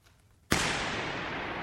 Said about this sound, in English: You stand there and you fire a starting gun, and you then record the sound with microphones.